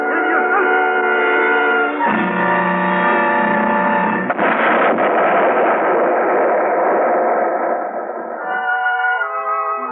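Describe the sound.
A synthetic sci-fi effect of a spaceship exploding in a radio drama: a dense, loud electronic drone of stacked tones that shifts abruptly a few times, thickens into a noisy roar midway, then slowly sinks in pitch.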